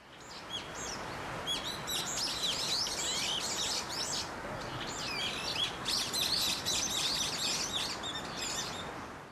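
Many birds chirping and twittering, bright high calls repeating in quick clusters over a soft, steady outdoor hiss, with no voices.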